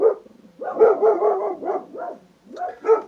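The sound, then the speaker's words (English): Male dogs barking in a quick run of loud, sharp barks, followed by a few more spaced barks toward the end. “my male dogs are getting mad.”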